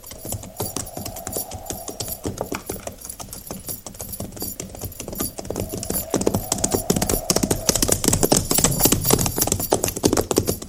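Clip-clopping hooves of horses ridden by a cavalry company, a steady run of many quick, overlapping hoof strikes. The hoofbeats continue throughout and grow somewhat louder in the second half.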